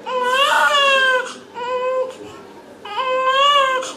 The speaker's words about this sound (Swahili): Sauti hiyo inaashiria kuna uhai, mtoto amezaliwa.